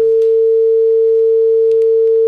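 A telephone tone sounding after a call-in to a radio show is cut off: a single steady, unbroken pitched tone holding at a constant loudness for the whole clip, heard alone.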